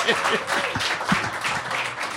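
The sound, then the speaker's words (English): Studio audience applause, a loud, steady rush of many hands clapping throughout, with voices calling out over the top. “Hey, here, keep clapping.”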